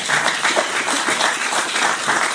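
Audience applause at a church gathering, a dense, moderately loud patter of many hands clapping that stays fairly steady throughout.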